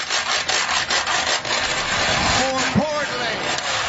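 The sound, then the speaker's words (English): Wooden spoons scraping across a washboard give a rasping, ragged run of strokes in an uneven rhythm, with a short voice-like tone near the end. “busted out a pair of wooden spoons and a washboard and started scraping away”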